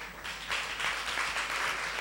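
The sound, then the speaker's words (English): Audience clapping at a show as a school patron is called forward: faint, dense clapping that starts softer, then swells slightly and stays steady. “Let's clap for the person.”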